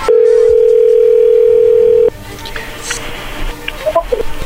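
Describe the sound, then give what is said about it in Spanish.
A telephone dial tone sounds as a call is placed. It holds loud and steady for about two seconds, then cuts off abruptly. Quieter line noise follows, with a few faint high beeps near the end. “ahí se está marcando”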